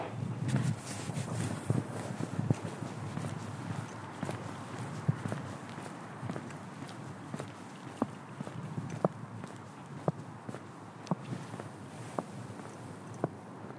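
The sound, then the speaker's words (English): Footsteps walk along the left-hand bank of the River Soar near the Leicester Space Centre, with a steady rhythm of crisp, fairly faint steps and some sharper ones scattered throughout. “So just in front of me now is the Leicester Space Centre. I'm walking on the left-hand bank of the River Soar.”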